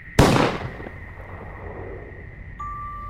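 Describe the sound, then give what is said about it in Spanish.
A single sharp gunshot sound effect cracks out and decays quickly, and a thin, steady high electronic tone later sets in and holds to the end. “El investigador hizo una pausa, apuntó al corazón del prisionero y disparó.”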